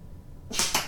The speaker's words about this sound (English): Oh, that one's dead center. Or pretty close to it. At least, I think so. Last dart,